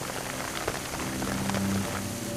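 Rain falls on a lithified mudstone cliff, the wet rock turning to slippery clay, making a steady, dense hiss of drops that holds at an even level throughout.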